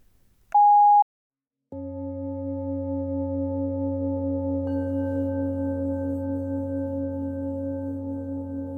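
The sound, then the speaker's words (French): A single short, steady answering machine beep at mid pitch, then a brief silence before a constant low droning tone that holds at even loudness to the end. “bon encore ton répondeur.”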